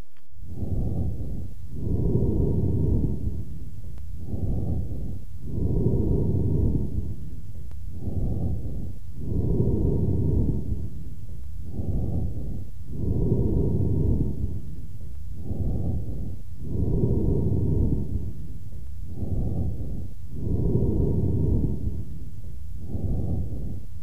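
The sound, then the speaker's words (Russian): Hollow, resonant amphoric breathing from a patient with a large left lung abscess: many loud breaths in a steady rhythm, short and longer phases alternating, each with a rough, whooshing tone. “Прослушайте амфорическое дыхание, записанное у больного с крупным абсцессом левого легкого.”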